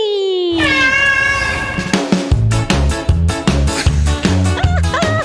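A male pet cat gives a short meow that slides downward in pitch, and a rhythmic musical jingle with steady plucked beats starts right after it.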